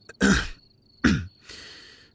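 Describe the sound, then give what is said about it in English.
A man weakly clearing his throat: two short, raspy bursts followed by a softer, longer, rumbling one. “Behind her, Drew weakly clears his throat, struggling to find the words.”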